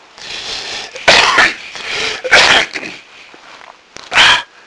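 A person clears their throat harshly, as tobacco smoke can force one to do: three loud, rasping bursts stand alone, with quieter raspy breathing and throat noise between them.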